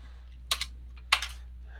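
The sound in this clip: Computer keyboard typing while a C# script is created in the Unity game editor: two short, quick bursts of crisp keystroke clicks separated by a pause, fairly quiet over a low steady hum.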